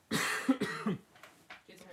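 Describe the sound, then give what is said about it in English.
Coughing and throat clearing, a few rough harsh bursts followed by softer, shorter hacks, moderately loud with brief gaps between them. “Excuse me, guys. I've got a frog in my throat.”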